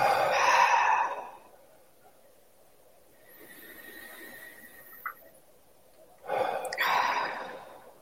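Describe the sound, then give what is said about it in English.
A deep breath drawn in through the nose and an audible exhale: two loud, breathy passes, one at the start and one near the end, with a long quiet stretch between. “But just starting with a deep inhale into the abdomen through your nose. Audible exhale.”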